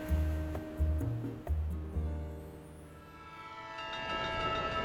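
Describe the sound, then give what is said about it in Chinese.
A departing train rumbles and clacks faintly, with a few low rhythmic pulses early on and steady tonal, horn-like tones that linger and thicken toward the end. “假日号列车即将发车，祝你旅途愉快。”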